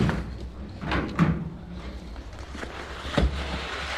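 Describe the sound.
A heavy cash box slides into the luggage compartment of a security van and the door is shut, giving a few dull bumps and scrapes with two louder knocking thuds.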